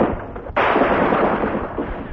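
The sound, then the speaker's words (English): Machine gun fire as a radio drama sound effect: after a short, quieter lead-in, a loud, sustained burst of rapid crackling shots starts abruptly and keeps going to the end. “I've got a gun. That's too bad, Cranston. I've got a machine gun.”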